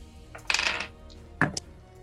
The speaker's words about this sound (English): Cool, that's cool. I'll just grab some other dice out.